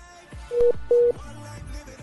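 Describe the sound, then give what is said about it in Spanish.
Dialing tones from a telephone call reconnecting: two short, steady, mid-pitched beeps in quick succession, standing out over a faint humming background. “Estamos en reconexión de llamada.”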